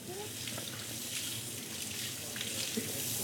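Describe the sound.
Water running from a tap during washing up makes a faint, steady hiss that stays even from start to finish.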